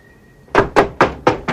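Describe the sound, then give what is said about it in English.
Knocking on a door: five firm, hollow knocks in an even, steady rhythm, loud and clear with no voices. “Crutchy knocks on Snyder's door and goes in”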